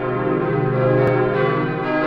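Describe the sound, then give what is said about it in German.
Church bells of a parish in Cologne ring loudly and continuously, sharing the same tones and foundry as older bells, their sustained overlapping tones humming together without distinct separate strikes. “Einen Eindruck, wie es früher wohl geklungen haben mag, vermittelt heute noch das Geläut von St. Nikolaus in Köln-Sülz, das dieselben Töne hat und von derselben Gießerei stammt wie die alten Anna-Glocken.”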